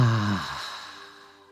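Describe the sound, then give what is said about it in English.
A slow exhale during a guided breathing exercise, beginning with a brief voiced, sigh-like tone and trailing into a soft breathy whoosh that fades away. “Let's do that two more times, inhaling through the nostrils. And exhale.”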